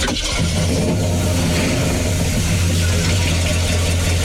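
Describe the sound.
A 1968 Chevrolet Impala custom sport coupé's engine is started and runs at a loud, steady idle, a deep even rumble that holds throughout.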